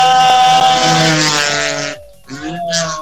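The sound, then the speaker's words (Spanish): Loud engine roar of a rally car skidding along a dirt road and riding up onto the verge: a strong, steady harmonic whine that briefly drops away, then revs back up in short bursts. “Ahí sí lo tenemos, viene derrapando, medio subiéndose al bordo.”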